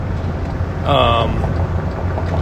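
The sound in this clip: A flatbed truck rolls along a Phoenix freeway with a steady low engine drone and road rumble, and a brief whining tone rises above it near the middle.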